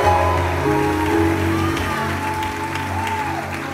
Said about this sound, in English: let God hear your hand clap and shout